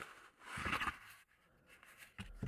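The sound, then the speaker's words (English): A packet of playing cards with a classic Victorian-style design is opened and the cards are slid out, making soft, quiet rustling and scraping in a few short bursts. “And I'm going to be opening up the packet of cards now. I'm taking the cards out”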